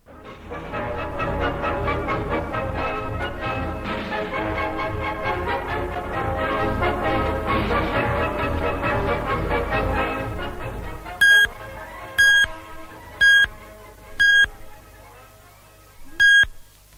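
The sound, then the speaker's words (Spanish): A radio being tuned: continuous music plays for about ten seconds, then cuts out and gives way to five short, bright electronic beeps, the last after a longer pause. “Vamos a sintonizar bien la radio a ver qué nos suena por aquí.”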